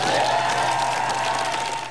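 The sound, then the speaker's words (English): Staff and ministers applaud outside Downing Street as Keir Starmer leaves for the final time, steady clapping with a few cheers that eases off toward the end. “He walked out to applause and hand in hand with his wife.”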